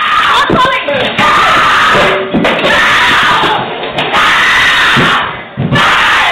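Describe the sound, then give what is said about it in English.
Recorded domestic abuse attack in front of a child: loud, harsh screaming and shouting voices, distorted and overloaded. The outbursts break off abruptly several times. “What you heard was an actual recorded incident of my abuser attacking me and my daughter witnessing the attack.”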